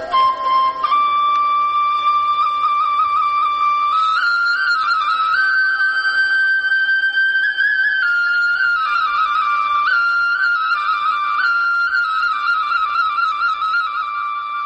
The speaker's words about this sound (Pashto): خو د دغه رمې شپونکي بیا دلته یوې لویې تیږې ته ډډه لګولې او شپېلۍ ژغوي.